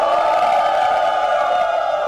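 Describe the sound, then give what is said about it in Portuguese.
Crowd booing sound effect, cued to jeer a 0–0 football draw between Bragantino and São Paulo: a steady, dense, droning chorus of disapproving voices that holds at an even level for about two seconds. “RB, Bragantino e São Paulo ficaram no 0x0, então toca vaia neles aí, Sonoplastia.”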